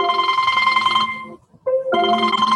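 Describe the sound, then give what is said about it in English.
A phone call ringing through a car's audio system, a loud melodic ringtone with sustained harmonic tones that cuts out briefly and then resumes. “somebody's getting a phone call. That's a first.”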